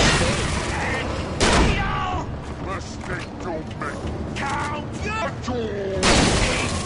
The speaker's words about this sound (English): Shoot the barrel.